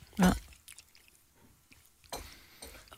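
Wet chewing and biting as someone tastes a sausage, with one loud bite near the start and another burst of soft squishy chewing later, between quieter mouth noises.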